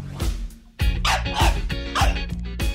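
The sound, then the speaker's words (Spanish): Dog barking in a quick run of many sharp, loud barks and yips with only brief gaps between them, and no voices. “Porque un ladrido te puede cambiar la vida.”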